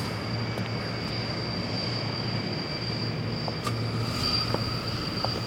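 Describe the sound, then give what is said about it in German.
A transport aircraft comes in to land with a steady, droning engine rumble and a thin high whine on top, holding even and continuous throughout with no clear rise or fall. “der Transporter mit der RACOM-Einheit setzt drüben gerade zur Landung an”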